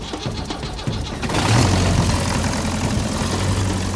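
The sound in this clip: An engine runs, driving a boat propeller bodged onto it. A rumbling mechanical drone swells louder after about a second and then holds at a steady, loud level.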